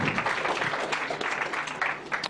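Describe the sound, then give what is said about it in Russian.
Dense, steady applause from an audience as a university student is called up on stage, a continuous wash of many hands clapping at even loudness for the whole stretch. “Вы должны аплодировать, как бы вас не назвали. Аплодисменты, Ренат.”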